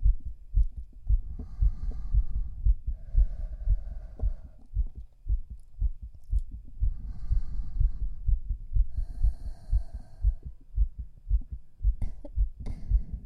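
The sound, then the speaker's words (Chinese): A fast heartbeat thumps in many low, rapid, steady pulses throughout, with a faint hum drifting in and out above the beats. “你怎么心跳的这么快？”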